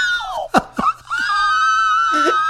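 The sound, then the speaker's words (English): A person's vocal squeal is layered and harmonized with itself into high, sustained chord-like tones. Swooping pitch slides and a couple of sharp breaks come early, then the stacked squeal holds steady. “And what I actually did was it's layered, so I harmonized my own squeal.”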